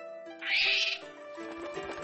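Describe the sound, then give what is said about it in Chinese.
A tamed gyrfalcon, a hawk, gives one harsh, high-pitched screech that lasts about half a second and stands clear of a quiet, low background. “这是百里少侠驯养的海东青。 海东青，鹰，不是母鸡，”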